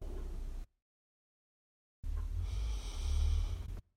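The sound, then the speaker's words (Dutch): Slow, deliberate breathing in a calming exercise: a brief breath cut short, a pause of silence, then one long, airy breath of nearly two seconds with a soft low rush. “Deze ademhaling van vier tellen in en zes tellen uit kalmeert je eigenlijk je hele systeem.”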